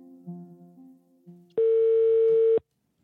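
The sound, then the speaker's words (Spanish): Telephone ringback tone while placing a phone call: a single loud, steady, mid-pitched tone lasting about a second that cuts off abruptly, preceded by a soft, low tonal murmur. “Llamé a Roberto Rojas para saber su perspectiva sobre todo esto, pero no quiso hablar.”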